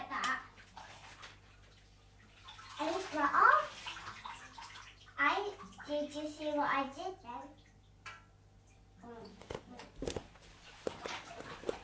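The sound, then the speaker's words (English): Bath water splashes as a child washes their face in a bathtub. The splashes come in intermittent bursts between quieter moments, with a child and an adult talking. “Yeah, wash your face now, get out all the hair.”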